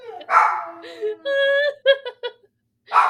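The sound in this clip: A dog barks, whines and yips in short bursts: a loud broad bark first, then a long high whine, then a few quick sharp yelps before a final bark.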